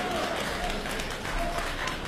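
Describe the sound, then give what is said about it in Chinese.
Faint, steady applause from the audience at a Beijing opera and folk performance, a soft continuous patter of many hands with no distinct individual claps. “大家鼓掌，再来一段。”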